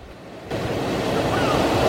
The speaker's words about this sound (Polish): Szumi, szumi morze. Słyszycie, jak szumi, szumi morze?